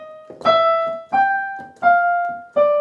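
A short melodic phrase of separate sustained notes, the sequence D sharp, E, G, F, D, heard alone. Each tone starts sharply, then fades slowly before the next one begins, giving an even, unhurried rhythm.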